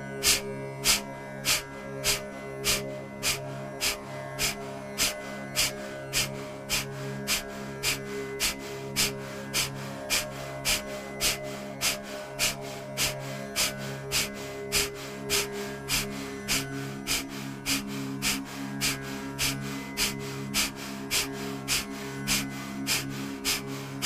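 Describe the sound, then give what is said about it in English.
Many rapid, forceful exhalations from a traditional breathing-exercise round of 120 breaths, each a short sharp puff in a steady, even rhythm over a low sustained drone. “I'm going to demonstrate the traditional round of 120 exhalations. Inhale. Begin.”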